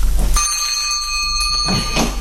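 A bell rung to summon a servant sounds as one steady, sustained ringing tone with bright overtones. It begins after a brief noisy lead-in and holds at an even level to the end.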